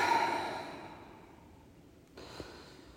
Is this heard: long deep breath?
yes